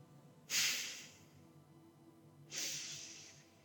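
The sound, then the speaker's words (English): Two sharp, forceful exhalations through the nose from a belly-pumping breathing exercise, each a short hissing burst that fades quickly, with a quiet pause of about two seconds between them. “Pump your belly in, exhale sharply through your nose. Practicing this slowly a few times.”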